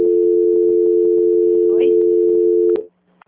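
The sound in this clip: A telephone line tone plays during a call transfer: one steady, unwavering pitch that holds for nearly three seconds and then cuts off abruptly, with faint muffled voices beneath it.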